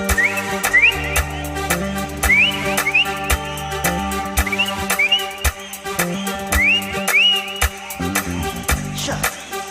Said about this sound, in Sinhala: කොල්ලො ටික දැන් විසිල් ගහන්න